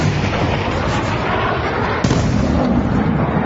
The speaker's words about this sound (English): Now, assuming this is a missile coming in from a ship.